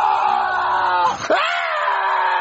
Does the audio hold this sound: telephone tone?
no